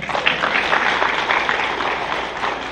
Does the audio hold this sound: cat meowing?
no